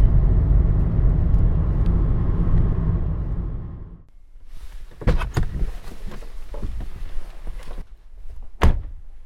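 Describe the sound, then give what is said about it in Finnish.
Steady, loud road rumble from a car driving along a forest road lasts about four seconds, then gives way to quieter sounds broken by a few sharp thunks. “ehkä 19 kilometriä tätä teitä ajellen ja sitten pitäisi tulla se Lohirannan risteys vasemmalle.”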